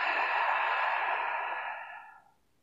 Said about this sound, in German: Atme nochmals tief durch die Nase ein und durch den Mund aus.